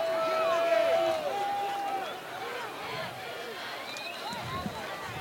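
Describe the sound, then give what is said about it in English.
Football crowd noise as Porter Ridge fans react unhappily to a pass interference penalty against their team. A steady, murmuring roar of many voices holds at a moderate level throughout. “Sure glad I got that crowd mic a little low. Porter Ridge fans not happy with that call.”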